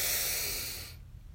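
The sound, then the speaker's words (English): A deep breath drawn in makes a loud, airy rushing hiss that holds steady and then tapers away into quiet. “The final breath together. Let's breathe in.”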